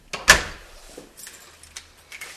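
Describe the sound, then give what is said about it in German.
An apartment door is locked with a key: one loud clack near the start, then a few lighter metallic clicks and rattles, with faint gaps of quiet between them. “Jetzt schließt sie zufrieden die Wohnung hinter sich ab, die Besichtigung ist beendet, die Interessenten sind begeistert.”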